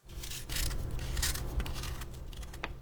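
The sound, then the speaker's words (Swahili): Scraping swipes of a peeler on a daikon radish while preparing a garnish for a tofu and dashi dish; several quiet, rasping strokes follow one another closely, with no talk. “Kwanza menya figili.”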